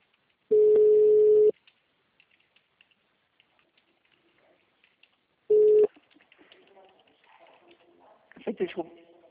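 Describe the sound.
Telephone tones after a call dropped during transfer: two steady mid-pitched beeps, one long and one short, separated by near silence, then faint scattered noise.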